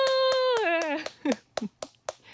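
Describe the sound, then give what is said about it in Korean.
Rhythmic hand clapping to celebrate a station's 58th birthday: a steady run of sharp claps, with a voice gliding downward in pitch at the start and short voiced bursts between the later claps. “같이 박수 치고 계시죠, 여러분? 네, 저 혼자 지금 이렇게 난리법석 아니죠?”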